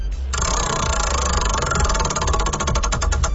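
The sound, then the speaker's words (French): A prize wheel spins, giving a rapid, continuous ratcheting of clicks that blur into a loud, steady buzz and become more distinct toward the end. “Et on va tourner pour toi la belle roue, c'est parti.”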